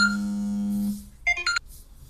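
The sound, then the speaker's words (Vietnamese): A phone ringtone interrupts a spoken ghost story: a steady, sustained electronic tone fades out, followed by a few quick, bright electronic beeps. “xin lỗi các bạn, thì có điện thoại.”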